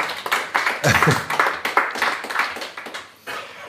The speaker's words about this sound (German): gerne klatschen